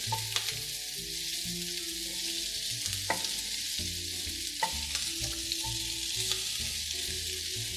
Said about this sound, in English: So here, we're bringing these onions to become tender, and they'll be the base of our baking dish. Slowly seeing each little piece become translucent.